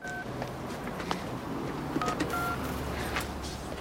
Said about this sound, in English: picks up a phone and dials.